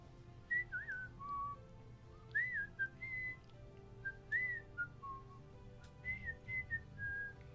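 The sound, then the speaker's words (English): Two creatures in a video game whistle back and forth, trading a very quiet repeating tune of short, high, sliding notes in brief phrases over a low steady hum, with no talk. “And they just whistle back and forth. Very, very quiet, but they whistle.”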